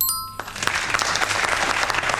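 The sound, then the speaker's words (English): A round of applause: dense, steady clapping from many hands that begins abruptly a moment in and stays loud and even to the end, with no talking. “what about a round of applause to our good friends at Karma Cola?”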